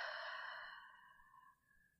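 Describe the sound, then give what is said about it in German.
A deep breath in a guided breathing exercise, heard as one long, airy exhale that starts fairly full and slowly thins and fades over about two seconds, with no talking. “Atme tief durch die Nase ein. Durch den Mund aus.”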